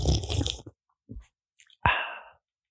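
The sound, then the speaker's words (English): A can of Coke Zero being opened and drunk: soft sipping-like noises, a brief quiet click, then a sharp metallic pop followed by a fizzing hiss that fades away. “That actually sounded refreshing. Did it? Yeah. It's actually a tin of White Claw. I'm joking. It's a Coke Zero.”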